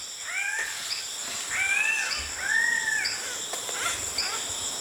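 Calls of an orange bird with a comb-like crest: a few harsh, harmonic squawking notes repeated over a steady bed of insect chirping, with no voices.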